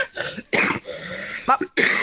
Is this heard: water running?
no